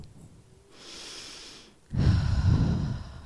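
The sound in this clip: Slow, deep breathing used to calm a distressed child, with a softer breath first, then after a brief pause a longer, louder, airy breath with a low rumble.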